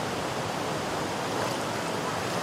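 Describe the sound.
Ice-cold river water rushes steadily as a biologist snorkels to survey the fish stock. The sound is a dense, even hiss with no breaks or voices.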